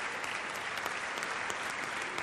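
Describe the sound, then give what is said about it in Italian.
Concert audience applause after a first encore of a Kurtág piece, somewhat tepid: a steady, even wash of many hands clapping at moderate volume, with no voices and no swell or break across the stretch. “Stanno però un applauso un po' fiacco per questo primo bis. Vediamo se questo applauso chiama il secondo bis.”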